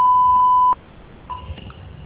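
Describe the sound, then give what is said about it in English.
A single steady voicemail beep sounds before message recording begins. The loud, clean mid-pitched tone holds for under a second, then cuts off to faint background noise. “Spreek uw bericht in na de toon.”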